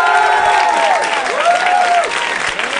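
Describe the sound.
An audience applauds a comedy show guest's entrance, a steady, fairly loud wash of clapping that carries through from start to finish.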